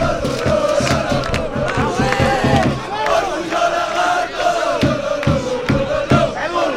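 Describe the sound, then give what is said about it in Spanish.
Real Jaén football fans chant and cheer in celebration, a loud crowd roar with rhythmic beats punctuating the massed voices throughout. “Así lo celebra la afición del Real Jaén.”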